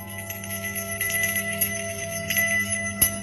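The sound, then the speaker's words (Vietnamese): A bell jingles at the gate of a house by the street, a bright, tinkling ring over a steady sustained tone, with a sharper strike near the end. “Bất giác, ở bên ngoài đường, ngay chỗ đầu cổng nhà ông vang lên tiếng chuông leng keng.”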